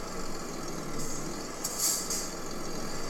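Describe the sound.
A truck engine in a driving video game, backing toward a trailer, gives a steady, faint low drone. A few brief hissing bursts sound above it.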